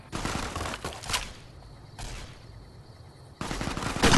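A big gun in the video game Fallout fires loud, rapid bursts of gunfire, three volleys separated by short pauses, with the last one the heaviest.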